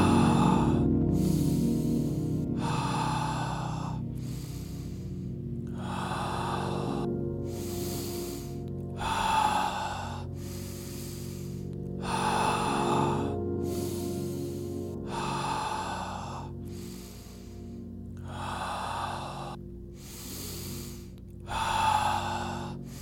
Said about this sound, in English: Continue following my breath.